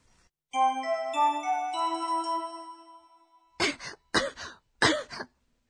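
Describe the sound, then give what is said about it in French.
A person coughs three times in short, dry bursts with brief gaps between them, after a sustained ringing chime-like tone fades out. “咳が出ます。”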